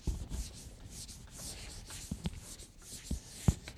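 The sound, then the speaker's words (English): An eraser scrubs writing off a board during a lesson on Scripture, with steady rubbing strokes and several soft knocks against the surface. “since you have this in your handout, I'm going to go ahead and erase this.”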